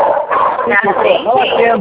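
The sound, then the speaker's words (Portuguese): A small dog barks and yips in a rapid, irregular string of high, whining cries. The cries are loud and continuous through the short clip and sound muffled and thin. “Entrou um cachorro. Entrou um cachorrinho aí, ó, na live.”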